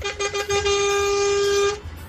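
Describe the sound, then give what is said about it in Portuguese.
A car horn honks twice in quick short toots, then sounds one long, steady, loud blast before cutting off. “E para vocês que estão no trecho, uma buzinadinha aqui para vocês.”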